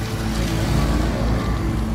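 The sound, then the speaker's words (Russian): A car driving away gives a steady, low, rumbling engine and road noise that holds an even loudness for two seconds, with no voices. “Машина уезжает.”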